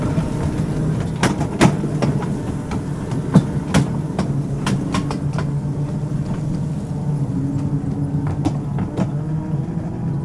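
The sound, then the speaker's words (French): Train wheels rumble steadily over rails with many sharp clicks as the train crosses a left-hand switch onto a diverging track and enters a station. The low, continuous rolling sound stays even throughout. “Aiguille gauche, voie déviée, entrée de la gare.”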